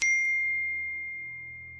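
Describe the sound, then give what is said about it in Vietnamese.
A phone's text message notification sounds as a single bright ding that rings out and slowly fades over nearly two seconds, clear and alone. “Điện thoại của Tiên báo có tin nhắn”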